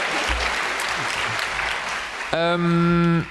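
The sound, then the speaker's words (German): An audience breaks into applause, a dense, even patter of clapping that holds for a couple of seconds before a voice cuts in with a short sustained tone. “Also wenn euch immer eine Stelle vorkommt, wo ihr denkt, das war schon ganz schön cool, gerne applaudieren.”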